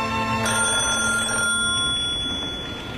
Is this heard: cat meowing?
no